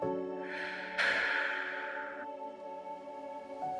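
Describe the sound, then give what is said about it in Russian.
A slow, soft exhale through the mouth during a breathwork exercise: a gentle, breathy hiss swells and holds for about two seconds before fading away. “Мягкий плавный выдох через рот.”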